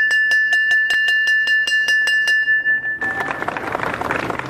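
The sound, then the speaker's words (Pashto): A school bell is rung at a ceremony opening the new school year in Farah province: about a dozen quick, evenly spaced, bright metallic strikes with a clear ringing tone. A dense wash of broad noise then takes over. “د فرا ولایت د پوهنې ریاست له خوا نن د نوي ښوونیز کال د پیل زنګ په مراسمو کې وژغول شو.”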